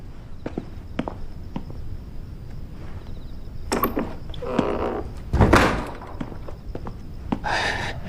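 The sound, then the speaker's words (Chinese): A door being closed indoors, heard among light footsteps and scattered taps, with one heavier, louder thump midway through. “你刚把门关上，这屋就咱俩人。”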